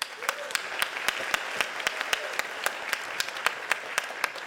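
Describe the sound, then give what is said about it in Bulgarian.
Audience applause at a comedy roast: a steady wash of clapping across the whole stretch, with sharp individual claps standing out at an even, fairly regular pace. “Аплодисменти за него.”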